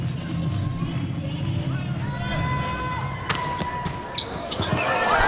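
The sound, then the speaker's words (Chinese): Table tennis serve in a match involving the Chinese team: the ball is struck and bounces on the table, giving a few sharp, light ticks over steady crowd noise and commentary. “好发球啊。抓机会。”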